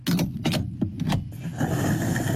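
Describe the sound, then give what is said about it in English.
A fuel pump runs while a car's tank is filled: several sharp clicks, then a loud, steady rushing hum of flowing fuel. “The pump is running, the litres are ticking up, and so is the cost of filling the tank.”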